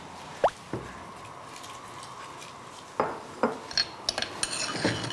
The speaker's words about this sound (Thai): ใส่ตะไคร้ใส่ใบมะกรูดลงไปในน้ำ